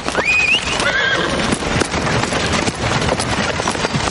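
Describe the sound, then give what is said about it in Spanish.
A horse whinnies near the start and hooves clop steadily along a forest road as a medieval procession passes, the brief high neigh giving way to dense, continuous hoof and movement noise. “El joven Silva y su caballo cabalga hacia él, deteniéndose a su encuentro.”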